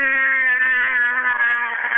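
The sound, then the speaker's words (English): Voice imitating the motor of a refrigerated trailer (reefer) kicking in: a loud, steady, buzzing drone held at a constant low pitch for about two seconds without a break. “somebody's parked next to me with a reefer, a refrigerated trailer, and I'm sitting there sleeping peacefully, and all of a sudden that thing, that motor kicks in automatically and just goes”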